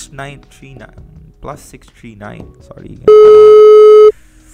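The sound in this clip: A telephone call rings out unanswered: after people talk, one loud, steady, pure ringback tone holds for about a second and then stops.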